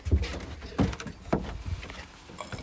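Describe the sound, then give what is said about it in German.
A window is opened in a room right after a door has been closed. A few soft knocks and thumps come in uneven succession, with a faint rattle or click between them and no voices. “Einmal kurz hier ein Fenster aufgemacht.”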